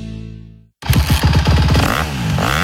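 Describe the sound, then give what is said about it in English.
Engine revving from a Honda CRF 450R or CRF 250R motocross bike, 2025 or 2026 model, bursts in loudly after a short gap. It is a rough, pulsing roar whose pitch swings up and down through repeated throttle blips. “Big Valley Honda, Northern Nevada's only Honda powerhouse dealer, where the hottest motocross bikes of the season are in stock and ready to go. Choose from the all-new 2025 and 2026 Honda CRF 450R or CRF 250R models”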